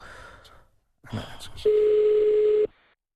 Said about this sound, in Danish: Men lad os prøve at høre ham. Ja, vi ringer op.